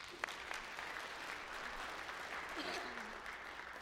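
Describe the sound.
Applause from a church audience at a celebration service, welcoming a woman who is about to speak; soft, steady clapping that fills the whole clip without clear breaks.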